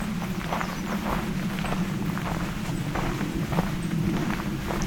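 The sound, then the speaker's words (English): Footsteps walk along a nature trail in a pine-tree nature preserve by a harbor, a steady run of soft, regular treads over a constant background hiss, with no talking. “Alright, so now that I'm starting the trail in Johnson Harbor, also known as Pine Tree Point Nature Preserve,”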